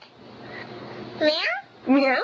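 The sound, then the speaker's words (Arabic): A young girl imitates a cat's meow, producing two drawn-out, wavering meows with a short gap between them, over a low background murmur. “يقولوا لها قطة تعمل مياو، الإنسان على صغر سنه يقدر يقلد”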